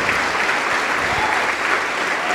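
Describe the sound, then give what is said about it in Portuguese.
Steady, dense applause from an audience at a religious service in praise of Jesus: a continuous wash of many hands clapping at an even loudness throughout, with no clear gaps. “Vamos aplaudir mais ao nome de Jesus.”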